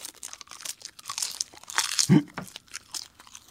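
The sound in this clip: Crisp crunching as sheets of high-grade Aomori nori seaweed are bitten and chewed: many irregular dry crackles and crinkles, loud and soft in turn, with one heavier bite near the middle.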